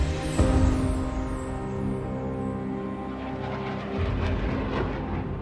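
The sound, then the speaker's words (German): Fighter jets over the eastern Mediterranean produce a steady, heavy roar of jet engines that holds at an even loudness throughout, with a low rumble underneath and no voices. “Kampfjets und Kriegsschiffe im östlichen Mittelmeer.”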